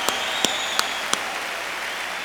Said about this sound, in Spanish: Con un aplauso de toda la bola de cabrones, claro. Claro que los que no aplaudan es porque son putos.